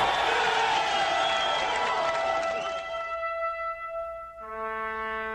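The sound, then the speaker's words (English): A massive crowd roars and cheers at a political rally, loud and continuous at first, then easing as sustained musical tones take over toward the end. “Watching on Twitter, there's a video. Massive crowd.”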